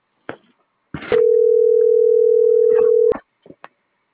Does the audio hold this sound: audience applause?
no